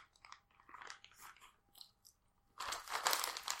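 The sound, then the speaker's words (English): Crunchy bites of a chocolate chip cookie: faint, scattered chewing crunches at first, then a louder, steady stretch of crunching near the end. “let me get my chocolate chip cookie out. It's so damn good.”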